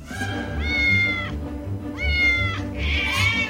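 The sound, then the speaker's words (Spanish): A cat up a tree meows three times, each call drawn out and clear, over a steady low background rumble. “Aquí vemos a un gato subido a un árbol.”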